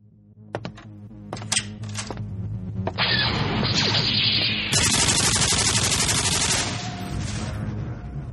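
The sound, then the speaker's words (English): A double-barreled nuclear plasma cannon fires in a video game: a few sharp early shots, then a loud, sustained barrage of crackling, bursting blasts that eases slightly toward the end. “I just conquered the outer rim planet of Pico Pond with my trusty double-barreled nuclear plasma cannon. Well, I just did in this video game.”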